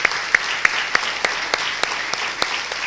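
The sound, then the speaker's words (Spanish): Applause from an audience at a church sermon, a steady wash of many hands clapping with a few sharper, louder claps standing out at irregular intervals, no voices over it. “Ah, pues dele un aplauso a Él por el especial cuidado que tiene para usted.”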